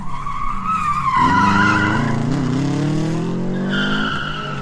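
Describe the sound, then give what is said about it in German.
Car tires screeching on asphalt as a car does doughnuts: a loud, sustained squeal whose pitch wavers and bends throughout, with a lower rumble beneath. “machst du da gerade eine Krone mit deinen Reifen in den Asphalt?”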